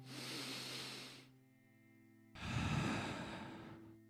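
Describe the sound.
A group takes a deep breath together: a long, soft rush of breath, a short pause, then a louder, fuller exhale that slowly fades, with no talking.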